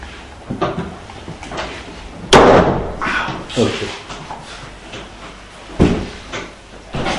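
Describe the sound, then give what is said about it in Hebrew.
A door being closed gives a couple of sharp thuds with a rattling knock, heard under ongoing conversation. “לא אכפת לך לסגור את הדלת?”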